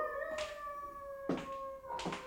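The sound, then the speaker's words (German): A dog howls in long, quiet, steady tones, with three short, sharp knocking bursts breaking in at intervals. “Nanu, haben Sie das gehört? Oh, und das war nichts. Da hat nur ein Hund geheult.”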